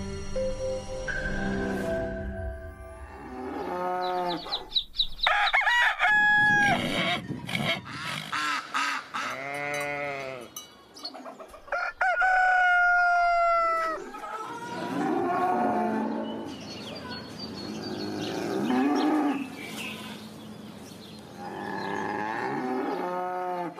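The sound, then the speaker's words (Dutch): Farm animals call in a loud barnyard mix, with cows mooing repeatedly in long, drawn-out lows alongside honking birds, the calls overlapping and trading off with almost no pause between them. “Het is echt een kakofonie van allemaal geluiden van de boerderij inderdaad.”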